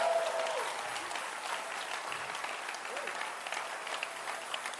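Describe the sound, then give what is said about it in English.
A church audience claps its hands in dense, continuous applause that holds an even level for the whole stretch, with voices blending into the clapping. “Shout higher, higher, higher. Clap your hands for Jesus.”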